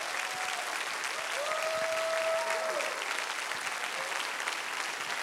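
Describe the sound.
Applause from a church audience welcoming a bishop to the pulpit: dense, steady clapping that fills the whole stretch at an even level, with a voice faintly heard over it.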